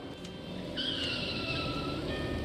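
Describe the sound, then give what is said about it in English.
Tyres squealing as a car is driven fast around curves, a thin high whine rising out of steady road rumble and holding to the end. “Jane, you really shouldn't drive so fast around the curves.”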